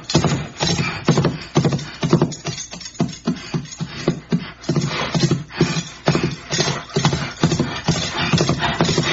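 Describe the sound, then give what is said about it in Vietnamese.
A horse's hooves clip-clop steadily as it climbs a trail over a hill at night. Many firm, evenly spaced hoofbeats carry on throughout, loud and without talk. “Tới đỉnh, ngựa dừng bước, thở phì phò.”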